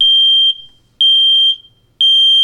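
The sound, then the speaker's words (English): An activated smoke alarm sounds three loud, shrill, high-pitched beeps, each lasting about half a second, evenly spaced one second apart, with silence between them. “Now, the second sound is the smoke alarm when it goes into an activated sound,”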